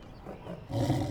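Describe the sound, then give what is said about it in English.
Tigers roar with a deep, rough growl that starts low and subdued and then swells into a louder, fuller roar during the second half. “They're tigers. Tigers. Roar! Roar! Roar, roar, roar! They're tigers!”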